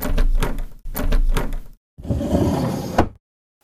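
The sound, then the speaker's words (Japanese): A sake shop's front sliding door is pushed open in three rumbling, dragging runs separated by short pauses. The last run ends in a sharp knock, then silence. “暗いな暗いな、まずは暗いから、店の戸を開けてから掃除と。”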